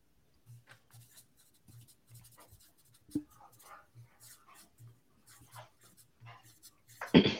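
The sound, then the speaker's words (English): Quiz participants write down their answers, making faint, scratchy pen strokes on paper in short, irregular bursts. A louder rustle comes at the very end. “Everyone done writing?”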